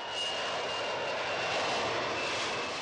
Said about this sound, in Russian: Ту-154 взлетает, убирает шасси.